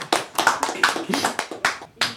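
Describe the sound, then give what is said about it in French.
Scattered applause for a guest, with separate, uneven hand claps that rise and fade in short bursts rather than forming a continuous wash. “On peut l'applaudir.”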